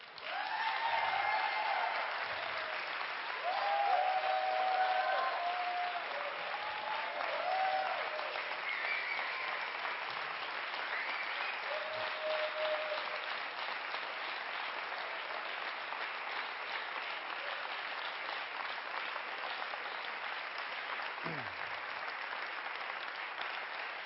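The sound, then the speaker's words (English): An audience gives a long round of applause for a woman making a long walk. The clapping is dense and steady throughout, with a few faint voices near the start. “I know it's a long walk, but I think this lady deserves some applause.”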